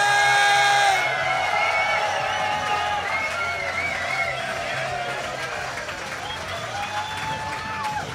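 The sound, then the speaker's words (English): An audience claps and cheers for a surfer, a 1999 world champion and 1995 Pipeline Master, as he is introduced: sustained dense applause with whoops, loudest at first and easing slightly throughout. “Ladies and gentlemen, put your hands together for the 1999 world champion, the 1995 pipeline master.”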